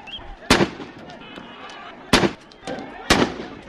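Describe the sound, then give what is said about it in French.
Three sharp, loud blasts as riot police fire tear gas grenades at dispersing protesters, irregularly spaced with a softer burst between the last two, over a background of voices. “Les policiers anti-émeutes leur courent après et tirent des grenades lacrymogènes.”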